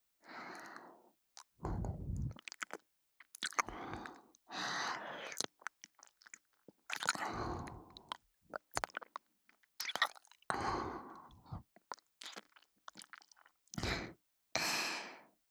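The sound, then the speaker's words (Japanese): Gentle biting, heard as many soft, quiet bursts of mouth and chewing sounds in an uneven rhythm, with short silences between them. “大丈夫ですよ。優しく噛むだけですからね。ほら、こんな風に。”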